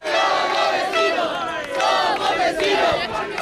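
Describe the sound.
A crowd cheers and shouts in celebration as the border fence between Spain and Gibraltar comes down. A dense, loud mass of voices swells and eases in a few waves.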